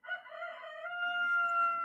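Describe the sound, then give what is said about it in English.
A rooster crows once outside a garage door: a single sustained, tonal call that rises quickly and holds steady, fairly faint, with no talk over it. “there's the rooster running around somehow. I don't know why he's outside the garage door.”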